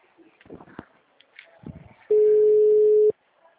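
A telephone dial tone sounds while a call is being placed: a single steady, mid-pitched tone held for about a second, following some faint, scattered sounds.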